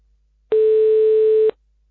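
A single ringback tone sounds on an outgoing telephone call. The steady, buzzy tone lasts about one second, starts and stops abruptly, and is surrounded by near silence.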